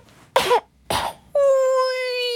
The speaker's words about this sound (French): Allongé sur son lit, les yeux fermés, il tousse. Il tousse tellement